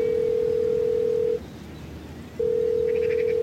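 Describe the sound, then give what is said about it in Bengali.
A telephone ringing tone after a home number is dialed: a steady, single-pitched electronic tone, a pause of about a second, then the same tone again. “বারতিনেক ring হবার পর বাবাই ধরল ফোনটা।”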